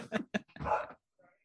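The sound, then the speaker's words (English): Dogs whimpering: a few short, whiny cries, then a longer strained whine, and finally a faint, thin trailing whimper after a brief pause. “I'm sorry for my dogs. No, the dogs are just agreeing with me.”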